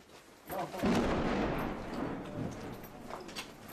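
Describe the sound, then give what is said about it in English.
Rocket fire during the war in Syria, with rockets passing overhead and landing on militant positions. A deep rumbling boom swells up and lingers as a sustained low roar that slowly fades over several seconds. “You can hear the rocket fire. Every few minutes, a rocket comes over our head and lands in one of the militants' positions.”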